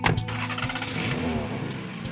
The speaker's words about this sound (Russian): сел за руль и покатился по заметенному проулку к небольшому кирпичному домику в центре поселка